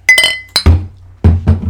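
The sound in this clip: Glasses clinking in a toast: a few bright, ringing clinks with a sustained high shimmer come close together at the start. Duller low thumps follow afterwards.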